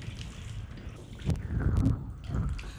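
Warm water runs over hair as it is rinsed during a shampoo, a soft, steady, quiet wash with a few splashy swells.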